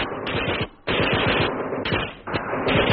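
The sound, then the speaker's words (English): Machine gun fire aimed down a slope at an enemy machine gun post in combat, loud sustained rapid bursts of rattling shots that break off briefly near the start and then continue. “let's put some fire down there where he's pointing”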